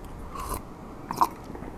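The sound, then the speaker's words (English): Slurping from a British cup of tea: two soft, airy sucking sips, the second slightly sharper, faint over a quiet background with no talk. “the slurp of a British cup of tea”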